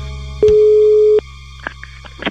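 A telephone line tone follows a dropped call: a click, then one steady mid-pitched beep lasting under a second, then low hum and a few faint clicks.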